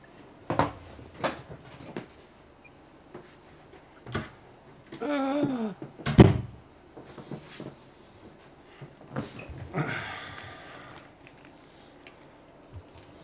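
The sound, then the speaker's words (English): An office door is being closed. A few scattered clicks and knocks are followed by one louder, sharper thud, then more faint knocks. No talk is heard. “I just need to close my office door here.”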